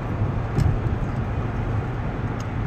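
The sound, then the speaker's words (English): Steady low road rumble of cars in heavy holiday traffic, a continuous dull roar with no distinct passes and no talk. “There's a lot of cars right now. Yeah, sorry, dealing with traffic.”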